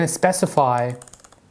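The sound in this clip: Typing Solidity code on a computer keyboard: a brief voice gives way to a run of quick, light key clicks in an uneven rhythm.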